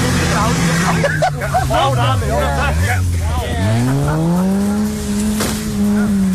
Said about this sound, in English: that's the sound of people skidding cars around a farmer's field in County Durham